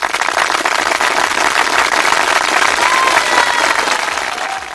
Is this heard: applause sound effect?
yes